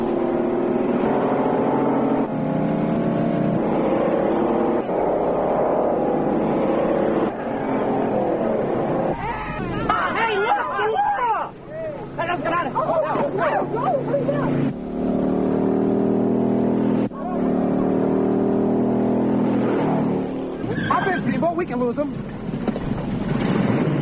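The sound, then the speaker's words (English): Hot rod cars in illegal street racing, engines droning loudly and continuously with revving surges and wind buffeting, while a voice talks over the noise. “It might have started with something like this. Very possibly it did. This is illegal hot rod racing.”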